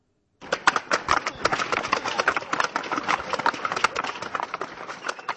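Wooden clogs clatter on the market square at the 2006 Holzfest as many historically dressed clog wearers parade. The sound is a dense, uneven stream of hollow knocking steps that keeps up without pause.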